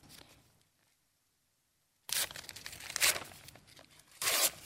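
Yellow and pink paper stuck together tearing apart: a faint rustle, a pause, then a long loud rip and a second short, sharp tear.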